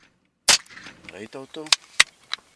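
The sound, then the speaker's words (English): A sharp gunshot crack from a hunting rifle fired out of a pickup truck window, followed by people talking and a few shorter, sharp clicks. “Every once in a while, he stops, rolls down the window, looks through the sight of his hunter's rifle, and shoots.”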